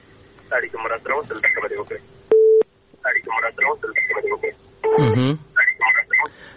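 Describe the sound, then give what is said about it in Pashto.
A telephone tone after a caller's line dropped: a single brief, steady beep sounding alone between stretches of talk by a voice, with a later tone overlapping speech. “نو دغه تلیفون څه مشکل درلوده، فکر کوم ستونزه وه، اړیکه شلیږي.”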